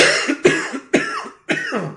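Someone coughs four times from a tickle in the throat, in harsh, loud bursts about half a second apart.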